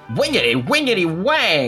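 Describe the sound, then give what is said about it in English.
A voice imitates a guitar in three drawn-out sung bursts of nonsense syllables, each bending up and down in pitch like twanged notes. “Yeah, that is the sound of a guitar.”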